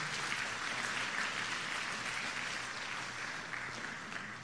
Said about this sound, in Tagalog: Pwede mong palakpakan natin ng Panginoon?